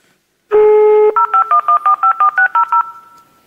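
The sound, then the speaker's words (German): Touch-tone telephone dialing of a number beginning with a local area code: one longer tone, then a quick, evenly spaced run of short, loud dual-tone beeps, with nothing else heard. “also 02261, weil man ja hier wohnt, und dann ruft man da mal an”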